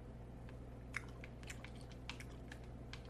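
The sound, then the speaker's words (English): Gum chewing close up, with soft wet clicks and squishes in an irregular rhythm, faint over a low steady hum. “But this is a gum chewing and controller noise video.”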